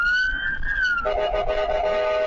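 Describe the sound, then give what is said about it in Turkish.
An ambulance siren sounds as the vehicle drives in the left lane through traffic in Istanbul, a loud, steady high wail that drops abruptly to a lower, buzzier tone partway through and holds there. “İstanbul Büyükçekmece'de bir ambulans sirenleri açık halde sol şeritte ilerliyordu.”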